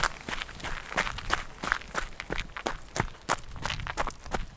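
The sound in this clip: Regular footsteps of someone walking through town while pushing a baby in a pram, many crisp, evenly spaced steps at a steady brisk pace.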